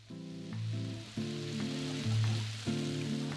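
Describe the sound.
Sauce sizzling in a pan on a stove in a home kitchen, with a steady, fairly loud frying hiss that continues throughout and no talking.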